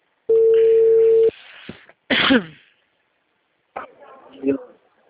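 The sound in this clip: A telephone call being placed: a loud, steady, held phone tone lasts about a second, followed by other brief noises and voices.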